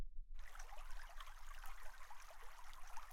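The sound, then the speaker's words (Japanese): Faint, steady water trickling in a hot spring foot bath, a soft, even wash of small splashes that begins just after a brief silence and runs on without talk. “まずはこちらの足湯からお楽しみくださいませ。”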